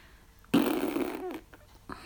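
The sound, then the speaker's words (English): One loud, drawn-out fart with a low buzzing, wavering tone that fades, followed by a brief faint blip of sound. “A big, fat fart.”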